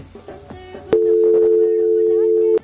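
A telephone line tone sounds as a call connects to a radio call-in line: one loud, steady, unbroken tone holding for nearly two seconds, then stopping abruptly after a short stretch of quieter mixed sound.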